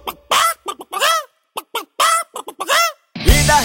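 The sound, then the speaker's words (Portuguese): A person imitates a hen squawking: quick bursts of loud, nasal, rising-and-falling clucks and cries, ending in a harsher, noisier squawk. “A galinha gritou:”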